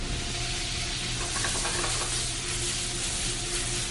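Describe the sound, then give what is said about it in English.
Sizzling of beef being sautéed and flamed in a pan for lomo saltado, a steady, dense hiss and crackle that holds at an even loudness for the whole stretch, with no voices. “I start sauteing the meat so that I can get flame, so the meat get a flavor on it.”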